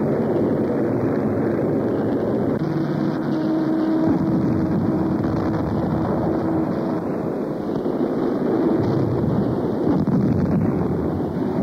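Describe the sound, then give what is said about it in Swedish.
Engines of a group of B-17 bombers flying low, a loud, steady droning roar with broad rushing noise that holds unbroken throughout, with no talk. “En grupp B-17 i så kallad lågsniff smygande sig på ett annat angreppsmål.”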